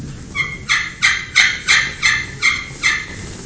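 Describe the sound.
Yelps from a turkey pot call, played on the surface about halfway between the lip and the center, come as a steady, evenly spaced series of raspy, high-pitched notes with no talk over them.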